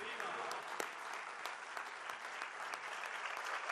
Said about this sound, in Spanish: Un saludo al pueblo del Perú y un aplauso bolivariano, sucrista, sanmartiniano.